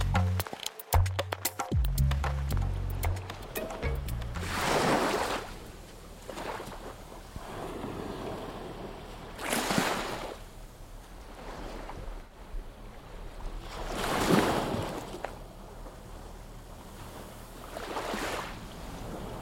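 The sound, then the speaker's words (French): Waves roll in at the seaside, a few broad surges of surf that swell and fade at a slow, regular pace over steady wind noise. “Aujourd'hui, on est au bord de la mer.”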